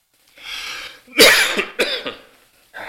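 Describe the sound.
Coughing and throat clearing from a person with an irritated throat: a few harsh, loud coughs and rasping clears in quick succession, with no talk.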